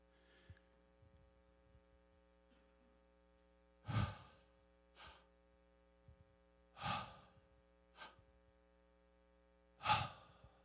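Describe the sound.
Audible breaths voiced to imitate the divine name Yahweh: five breathy bursts, three strong ones alternating with two softer ones, over a steady low mains hum.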